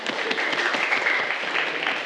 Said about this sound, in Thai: ปรบมือให้เพื่อนเลยครับ